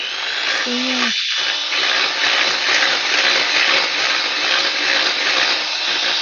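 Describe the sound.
An electric hand mixer beats a mixture on high speed in a bowl, giving a steady, loud motor whir with a bright, buzzing hiss that holds unchanged throughout, with a brief voiced murmur near the start.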